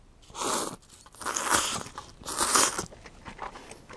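Crunchy biting and chewing of soba noodles eaten together with a few potato fries: three loud crunching bursts spaced about a second apart, with softer chewing between them and no talk.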